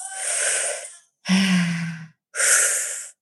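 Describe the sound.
Deep breathing during a live guided breathing exercise: three long, airy breaths, each close to a second, separated by brief silences, steady and fairly loud with no talk.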